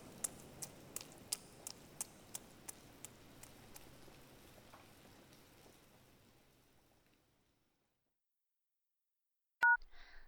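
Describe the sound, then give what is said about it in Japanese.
A phone number is dialed to call someone, heard as a long run of evenly spaced sharp clicks over a faint hiss that fades into silence. A short, loud electronic tone follows. “もしもし、先輩ですか？先輩にかけてるんだから先輩が出るのは当たり前か。”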